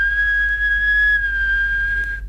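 A person whistles one sustained, steady high note for about two seconds, dipping slightly partway through, alone over a low constant hum.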